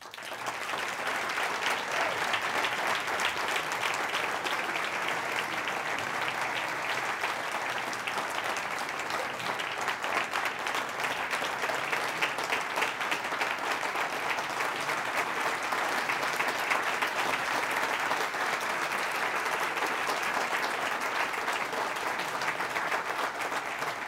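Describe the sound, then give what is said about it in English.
Standing ovation from an entire room after a speech on hospitals and childhood trauma: dense, even clapping that holds at a constant level for the full twenty-odd seconds, with no voices breaking through. “Benefit of our radio audience, that's a standing ovation room, the entire room.”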